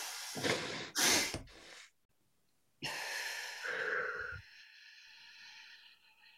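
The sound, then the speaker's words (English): A person breathes in twice through the nose, then exhales at length. Two quick, sharp sniffs come close together, then a pause, then a long, breathy exhale that thins and fades toward the end. “So you breathe in, and then immediately at the end of the inhale, you snuff in a bit more air, because that expands the sacs in your lungs to their full capacity”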